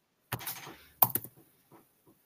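Keystrokes on a laptop keyboard: a brief cluster of crisp clicks, then a sharper, louder burst of a few taps, trailing into a few faint scattered ticks with quiet gaps between, no voices.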